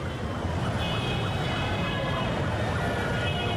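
City traffic with an emergency siren: a steady, dense roar of engines and road noise fills the whole stretch, while a siren wails up and down over it.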